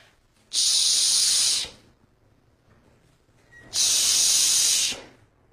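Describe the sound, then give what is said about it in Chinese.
A voice imitates a hand pump forcing air into a bicycle tyre, making two long, breathy hisses of about a second each, separated by a pause, with no other sound. “有个小伙给自行车胎正打气，盯着个姑娘一个劲的瞧，脖子抻的像仙毫，眼睛瞪的像核桃，抓着个气筒一个劲的打，”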